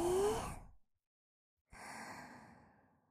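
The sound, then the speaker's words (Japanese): Breaths during a guided breathing exercise: a long, airy breath fades out, silence follows, then a second long breath starts abruptly and tapers off gradually. “はーい、吸って”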